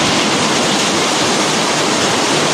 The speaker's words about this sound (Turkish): Sağanak sonrası kısa sürede taşan sular Patriot Mahallesi'ndeki köy içi yolları su altında bıraktı.